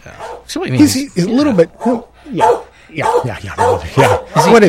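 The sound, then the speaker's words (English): A dog vocalizes at a radio station in a run of loud yips, whines and short barks. Its pitch rises and falls in bursts separated by brief pauses. “And our dog, Mahler. Mahler. He's doing all right.”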